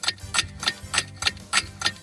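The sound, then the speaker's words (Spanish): Steady ticking of wind-up clocks in a royal palace: sharp, even clicks repeat about three times a second, with a softer low knock under each tick. “él se encarga de cambiar la hora de más de 230 relojes de cuerda que existen en el Palacio Real.”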